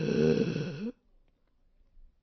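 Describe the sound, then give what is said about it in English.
A person imitates asthmatic wheezing with one strained, raspy, whistling breath that lasts under a second and wavers in pitch, followed by near silence. “Start wheezing.”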